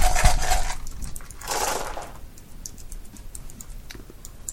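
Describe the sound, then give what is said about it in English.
Several dice rolled together during a tabletop role-playing game clatter in two rattling bursts, followed by a scatter of small, light clicks as they settle. No voices. “Let's use some of these. Okay. Roll all the dice.”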